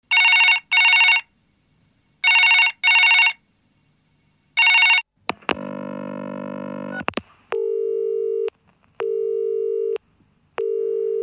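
A telephone rings in short electronic bursts, two pairs and then a single ring. A steady dial tone follows, then a lower tone beeping three times in even, spaced pulses.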